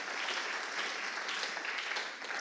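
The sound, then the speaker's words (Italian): An audience at a worship gathering applauds with steady, sustained clapping. The many hands blend into an even, fairly quiet texture that holds throughout without pause. “Vogliamo fare un applauso al Signore?”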